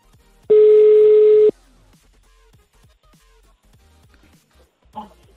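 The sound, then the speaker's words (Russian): A single steady telephone tone lasts about a second as a number is being called. It sounds loud and alone, followed by faint scattered clicks and a brief muffled sound near the end. “Так, далее звоним, еще номер есть. Я, короче, заранее, ребят, сохранил номера. Сейчас еще на один наберем.”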